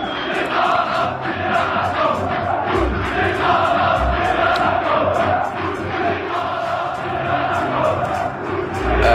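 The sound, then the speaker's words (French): Football supporters in a stadium in Algiers chant in unison, a loud massed chorus of voices with a repeated rhythmic melody over a steady crowd roar. “Alors, faut quand même expliquer que ça se passe dans un stade d'Alger. C'est le stade Hamadi. C'était le 13 février dernier. Et les supporters chantent Bouteflika Rabiya Rahmous”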